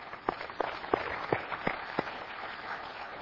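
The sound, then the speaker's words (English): A church audience gives a round of applause: a few loud, distinct claps stand out above a softer wash of clapping that gradually thins and fades toward the end. “And I just want to give him a round of applause,”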